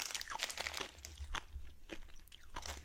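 Crunchy Nerds candy being chewed in ASMR-style eating, with many crisp, crackling bites and crunches in an irregular rhythm at a fairly low level.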